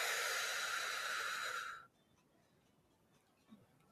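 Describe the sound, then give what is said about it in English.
One long, forceful exhale during a seated breathing exercise, bright and hissing, lasting under two seconds and cutting off abruptly into near silence. “One more time. Big deep inhale. And exhale.”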